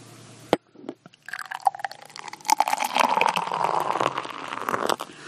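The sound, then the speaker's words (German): Expired Kirin Ichiban beer pours from a freshly opened bottle and foams heavily. A sharp click and a few light knocks come first, then a steady fizzing, gurgling pour that carries on to the end. “ja aber also, es schäumt extrem. Ja ich würde auch sagen, das sind irgendwie vier Fünftel Schaum.”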